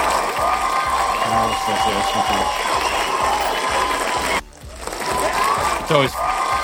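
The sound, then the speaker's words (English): Studio audience applause and cheering, a loud, continuous burst of clapping and crowd noise that briefly drops out past the middle before swelling again, with a voice cutting in near the end. “I'd also like to say hello to the studio audience.”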